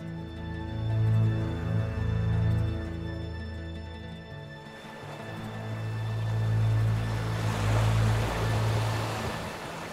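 Sea waves wash around a small boat drifting on open water at dusk, a broad surf noise that swells and recedes, growing stronger in the second half over a steady low tonal drone.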